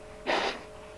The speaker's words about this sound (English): No, I gotta blow my nose. I'm sorry.